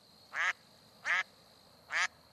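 Ducks quacking: three loud, nasal quacks, each about a fifth of a second, spaced evenly apart with quiet between them and no voices.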